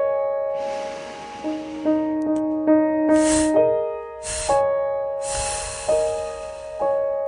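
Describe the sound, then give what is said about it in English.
Three breathy voiceless "f" puffs released in a single exhaled breath during a breathing exercise, each a short hiss of air over a steady, sustained musical tone. “And this time, after you breathe in, let three of those F's exhale in one exhaled breath.”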